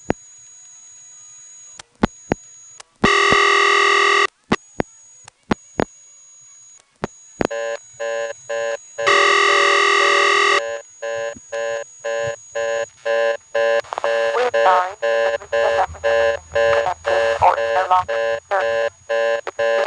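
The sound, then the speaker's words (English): Telephone tones from a payphone's callback circuit, equipment used for party lines and testing: sharp clicks, steady tone bursts and short dialing beeps, then a fast, evenly pulsing reorder tone that repeats loudly through the last seconds. “Now, of course, the reorder tone you heard there is not a real reorder because it's just the tone coming from the callback circuit, a special piece of equipment used for party lines and testing.”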